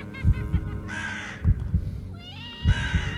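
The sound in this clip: A crow caws in a few harsh, rasping calls, heard alongside low rhythmic thuds.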